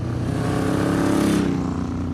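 A long motorcycle is ridden through a series of bends, its engine holding a loud, steady drone. The pitch climbs slightly, then eases off shortly after midway.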